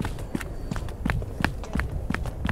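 Running footsteps land in a quick, even rhythm, a steady series of soft thuds at moderate loudness.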